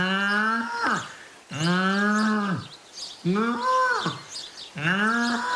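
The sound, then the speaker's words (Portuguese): A calf mooing: four drawn-out, loud bovine calls in a steady sequence, each rich in harmonics and dropping in pitch at its end, with short pauses between them. “feita pelo nosso animal adivinho do Mundial, o bezerro que colheu o Paulo Núncio.”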